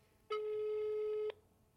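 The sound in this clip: A single ringback tone sounds while a phone call is being placed: one steady, mid-pitched electronic tone lasting about a second, then stopping, heard alone with no voices.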